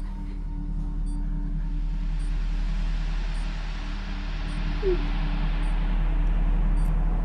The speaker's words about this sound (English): As Jonathan drives from the underground car park